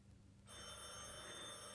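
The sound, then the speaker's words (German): A telephone bell in 1930s Germany starts ringing after a brief near-silence, then holds a steady, bright, continuous ring to the end. “Telefon.”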